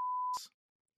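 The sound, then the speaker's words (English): One steady electronic beep, a pure mid-pitched tone under half a second long, ends in a short burst of hiss and then silence. “the first beep of the episode right at the end?”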